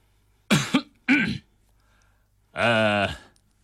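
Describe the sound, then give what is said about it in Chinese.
Two sharp, short coughs from a press officer about to open a press conference, followed by a longer voiced throat-clearing. Each sound stands alone against a quiet background. “此时新闻处长咳嗽了两声，向大家宣布”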